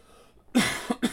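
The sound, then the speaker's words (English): A person with a contagious illness coughs three times, one longer, harsh cough followed by two short, sharp ones, fairly loud and alone. “there is a little bit of cough, but it's not like it was where I was constantly”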